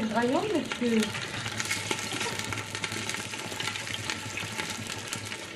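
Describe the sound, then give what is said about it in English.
Steady frying sizzle as mustard rabbit cooks in a pan in a restaurant kitchen, a constant hiss throughout with a brief voice at the start. “this looks like rabbit going into the pan. Yeah, that's mustard rabbit.”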